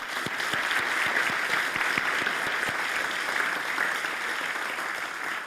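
Audience applause welcomes a panel at a media discussion event at the Antidote 2022 festival: dense, even clapping from many hands, sustained at a steady level throughout with no talk over it.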